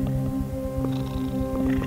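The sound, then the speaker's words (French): A cat purring: a steady, low, rhythmic rumble that carries on without a break for the whole clip, with a constant tonal hum underneath. “ça, c'est du ronronnement de chat qu'on entend derrière”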